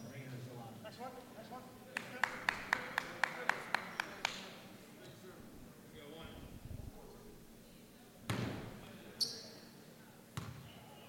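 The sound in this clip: Basketball dribbled at the free throw line before a shot: a quick, even run of sharp bounces, then scattered thuds and shuffling with voices in the background.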